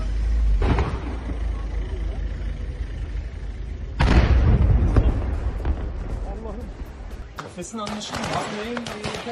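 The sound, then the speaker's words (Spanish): Real recorded sound of a terrorist attack with gunfire on a military aerospace factory in Turkey: two heavy, sharp bangs about three seconds apart burst over loud, continuous rumbling noise, with people's voices audible. “Es el sonido real del atentado, ¿eh?”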